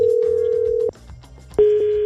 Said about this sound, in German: Ich probiere ihn mal anrufen.